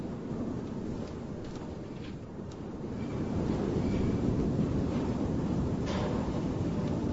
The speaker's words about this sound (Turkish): Fena bastırdı. Tipi halinde yağıyor. Göz gözü görmüyor dışarıda.